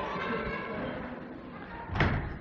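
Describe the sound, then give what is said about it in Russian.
A door in a lecture hall is slammed shut, a single heavy thud near the end that follows a stretch of quiet talking. “я очень прошу, встаньте кто-нибудь у этой двери, чтобы не входили, потому что все время открывают, очень тяжело.”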